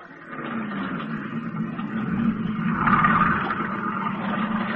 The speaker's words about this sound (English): Get into the boat. Okay. You're steering. Go ahead, start it up.